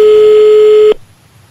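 A telephone line tone during a call being placed: one loud, steady, mid-pitched hum holds for just under a second, then cuts off abruptly into near silence.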